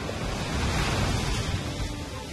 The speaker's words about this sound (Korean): 높은 파도로 멋진 해변을 지금 연출하고 있어요.